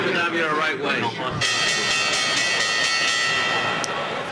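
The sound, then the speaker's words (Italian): A bell introducing the stock-market report rings with bright, sustained metallic tones that begin abruptly after a second or so of voice and hold steady, loud, to the end. “È tornata la campanella.”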